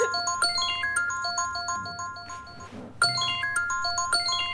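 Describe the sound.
A mobile phone ringtone plays a bright electronic melody of quick, repeated beeping notes. The tune breaks off briefly near the end, then starts over.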